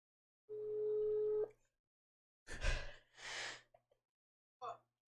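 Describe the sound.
A telephone tone over speakerphone during a call: one steady tone holds for about a second, then a few short, noisy bursts follow.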